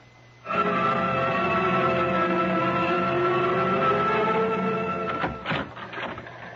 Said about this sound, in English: Well, Lieutenant, Johnny, I've been staring at that teletype machine out there until I can't see straight.